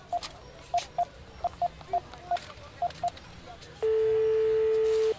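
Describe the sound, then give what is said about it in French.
A telephone number is dialed on a keypad: a string of short, clear beeps at an uneven pace, followed by a long, steady, louder ringing tone. “Je vais téléphoner à Célie. Elle connaît un magasin.”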